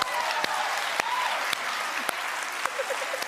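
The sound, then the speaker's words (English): Women in a TV studio audience clap steadily in a continuous, moderately loud wash of applause. A few sharper, louder claps stand out at roughly regular intervals. “then it's just the same clip of the women in the audience clap.”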